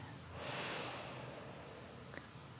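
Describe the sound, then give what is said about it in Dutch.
One soft, deep breath drawn in through the nose, a faint airy inhale that swells early and fades, with quiet stillness after. “Adem diep in door je neus.”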